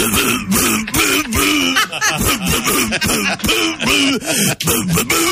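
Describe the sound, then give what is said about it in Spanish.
A voice coughs out the melody of a birthday song as a run of many loud, rhythmic, pitched cough bursts with short gaps between them. “El feliz cumpleaños, pero tosido.”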